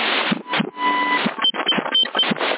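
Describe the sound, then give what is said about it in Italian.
A home printer printing a page gives off whirring mechanical passes and thin whines in a fairly loud, uneven rhythm, with no voices over it. “Ok, adesso mi stampo questa cosa qua.”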